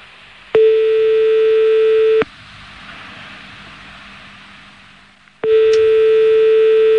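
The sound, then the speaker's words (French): Ringback tone on an outgoing telephone call to a prison: two long, steady electronic tones, each under two seconds, separated by a gap of faint line hiss. “on va rappeler la prison que t'as appelée tout à l'heure.”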